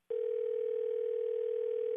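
A telephone dial tone sounds while a call is placed back. After a brief silence, a steady mid-pitched hum starts and holds unbroken on its own.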